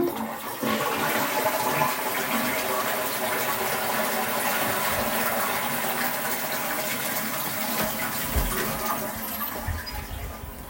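A toilet flushes with a loud, continuous rush of gushing water that lasts about ten seconds and tapers off at the end.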